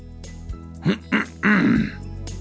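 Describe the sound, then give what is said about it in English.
A man, a father, clears his throat: two short gruff bursts followed by a longer rasping one, fairly loud over a steady low hum. “My father clears his throat.”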